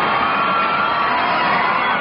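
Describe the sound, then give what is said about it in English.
An American studio audience cheers and whoops at someone's entrance, a dense, continuous burst of crowd noise lasting about two seconds at an even, loud level. “It's just the American audience. They do that every time someone comes in.”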